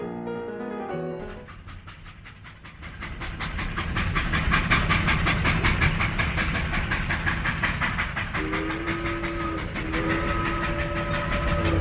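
A steam train sound effect opens with a whistle, followed by a steady rhythmic clickety-clack of wheels, with a two-tone whistle sounding again near the end.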